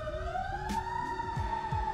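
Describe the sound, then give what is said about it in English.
An emergency vehicle siren sounds faintly in the background, a steady wailing tone that climbs slightly in pitch and then holds level, with a few low thumps underneath. “sirens going off in the background”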